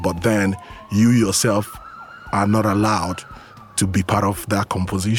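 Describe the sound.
A police siren sweeps up and down in a city, its thin wailing tone running steadily beneath a person speaking.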